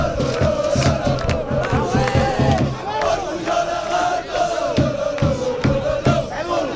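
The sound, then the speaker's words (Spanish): Real Jaén football fans chant in celebration, a large crowd of voices shouting a loud, rhythmic chant in repeated surges throughout. “La gente entera se va de borrachera, es lo que dice el grito de la afición. La verdad es que seguro que esa Plaza de las Batallas, lugar habitual de celebración, va a llenarse en la noche de hoy. Así lo celebra la afición del Real Jaén.”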